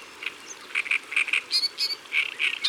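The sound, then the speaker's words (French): Reed warbler singing in reeds: a chattering run of short, bright, repeated notes in quick, uneven rhythm, moderately loud over a quiet, steady background. “Écoute, tu la reconnais ? Bien sûr. C'est la rousserolle de l'histoire. Elle est par là, dans les roseaux.”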